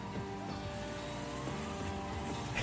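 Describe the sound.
Forklifts race each other with a faint, steady engine drone. Their rich, overlapping motor tones hum on continuously with slight wavering.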